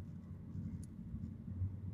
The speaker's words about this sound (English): now I'm driving right now